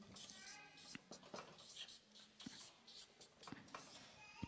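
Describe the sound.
Faint handwriting, a note being written: soft scratching strokes with a few sharper taps as the pen moves, quiet throughout, with a low voice heard briefly.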